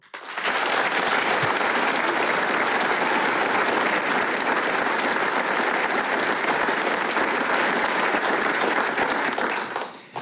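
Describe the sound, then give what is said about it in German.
An audience in the Arbeiterheimsaal in Vonsdorf cheers and applauds a folk music programme at a premiere. The clapping is dense, loud and unbroken for about ten seconds, then tapers off at the end. “Und wie der Arbeiterheimsaal hier in Vonsdorf klingt, wenn er dieses Programm bejubelt, das klingt dann genau so.”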